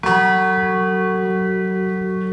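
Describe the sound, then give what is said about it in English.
A bell of remembrance rings once at a ceremony in Warsaw, giving a bright metallic strike followed by a long, steady humming decay. “Meanwhile, in the Polish capital, Warsaw, leaders from around the world sounded a bell of remembrance during an emotional ceremony.”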